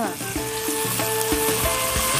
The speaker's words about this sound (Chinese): 用这个料油去炒洋葱，把洋葱呢也要把它煸到什么程度呢，哎，上一点小焦边的状态，来把这干辣椒下去